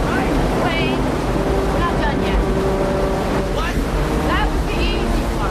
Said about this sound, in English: They head towards the rapids at the bottom of the canyon. The water cascades down a series of steps in the riverbed, forming a narrow channel of foaming water underneath the sheer rock cliffs.